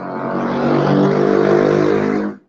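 A motorbike riding up the road, its engine droning loud and steady for a couple of seconds with a buzzing, layered tone before cutting off abruptly.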